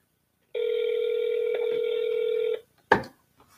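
Telephone keypad tone as a phone number is punched in: one steady electronic tone held for about two seconds, then a sharp click after a short gap.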